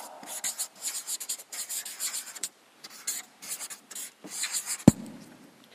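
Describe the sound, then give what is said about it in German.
Scratchy pen strokes of someone drawing a small diagram by hand, many short rubbing scrapes in quick bursts with brief pauses, ending with one sharp tap. “Ich versuche den Inhalt dieses Kapitels in ein kleines Schema zu zeichnen.”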